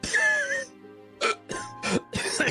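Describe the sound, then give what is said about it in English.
Choking and coughing from a man who has just hit the ground: a strained vocal groan, then several harsh, rasping cough bursts in quick, uneven succession. “He hits the ground with a thud and chokes and coughs”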